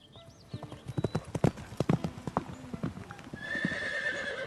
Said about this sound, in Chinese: 吕布当然不乐意了，他飞马跑去找刘备理论。